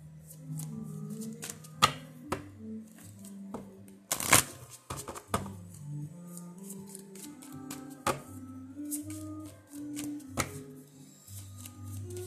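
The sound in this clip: Tarot cards are shuffled in a series of soft slaps and taps, with one brisk, louder riffle partway through, all over a faint, steady tonal background.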